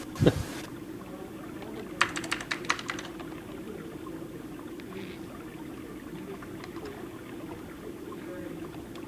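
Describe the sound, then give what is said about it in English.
Typing on a computer keyboard, a quick burst of light clicking keystrokes followed by a few scattered taps over a steady low hum. “Ask me a question. I'll type fast.”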